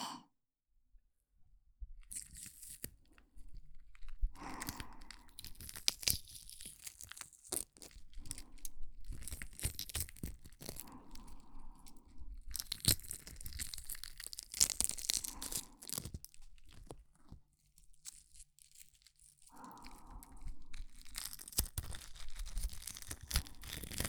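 Shell and thin membrane being peeled from a boiled egg: irregular bursts of crackling, crinkly tearing and soft rustling, broken by brief silent pauses, with no voices.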